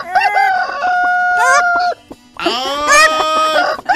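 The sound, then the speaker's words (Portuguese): Chickens in a henhouse calling loudly. Two long, drawn-out crows are heard, with shorter clucking and squawking notes around them and a brief pause between. “agora eu quero me informar se já está tudo assim certinho com o coral aqui do galinheiro da matinha”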